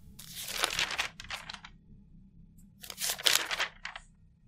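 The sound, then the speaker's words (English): An old, partly readable piece of paper crinkles and rustles as it is picked up and handled. Quiet, with two main clusters of dry crackling bursts separated by a brief lull and no voices. “I placed the flashlight in my mouth and picked up a piece of paper, one that was still somewhat readable.”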